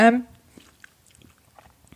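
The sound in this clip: Faint chewing as someone tastes a home-cooked lamb dish made with walnut oil and tomato puree: a brief voice at the start, then scattered small, soft mouth clicks.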